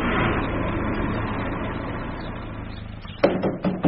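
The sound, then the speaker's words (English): A car sets off for a drive through the county, its engine producing a steady, broad rumble that eases slightly before a few sharp knocks punctuate the end. “No breaking down or stopping again. Just keep going this time. We're off for a lovely drive through the county.”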